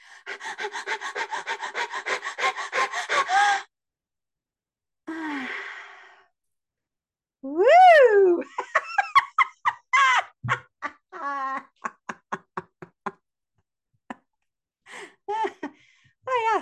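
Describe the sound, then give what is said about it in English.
Breathing in, holding and exhaling during a Kegel squeeze exercise, heard as voiced sighs and pants: a long rough breath, a pause, a short exhale, a rising sigh, then many short panting breaths. “So what I was doing is with each breath, I was also squeezing, doing a Kegel squeeze at the same time, and then holding my breath and then exhaling and relaxing”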